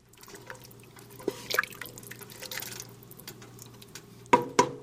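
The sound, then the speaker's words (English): Wooden spoon stirring chicken stock in a soup pot on a burner. Irregular wet clicks and soft knocks of wood against the pot side sit over a faint steady hum, with two sharper knocks near the end. “recorded her husband stirring a soup pot with a wooden spoon as he was making chicken stock. You can hear the burner heating up. You can hear him stirring. You can hear that wooden spoon bumping against the side of the pot.”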